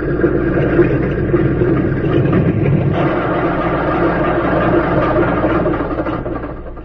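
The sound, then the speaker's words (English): Engine of a plane that has just landed on a small field: a loud, continuous low rumbling drone, steady throughout and easing slightly at the end, with no voices. “a plane circled the small field and came in for a landing. As its wheels touched the ground”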